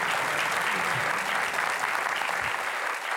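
An audience applauds as a guest is welcomed onto a stage, with dense, steady clapping filling the whole stretch without a break.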